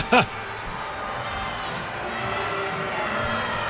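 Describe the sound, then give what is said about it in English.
Low grumbling from the crowd at a soccer match at Shell Energy Stadium forms a steady, murmuring wash of noise. A brief sharp sound cuts through at the very start. “You can hear the grumbles by the crowd at Shell Energy Stadium.”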